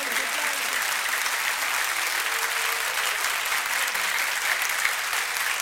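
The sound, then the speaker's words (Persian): Hearty clapping from a crowd at a Persian devotional gathering honoring Ali, a thick, continuous wash of applause that stays loud and even from start to finish. “سلام علی، اگر که محترمم من به احترام علی، کف جانانه بزن.”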